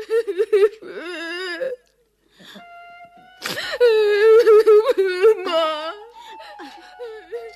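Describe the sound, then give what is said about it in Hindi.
A young girl sobs in wavering, voiced whimpers and cries, broken by gasps. A brief silence follows, then a longer run of louder, trembling wails that fades into softer whimpering. “तब वो उड़ती हुई एक सांस में माँ के पास गई और माँ की गोद में गिरकर सुबकने लगी।”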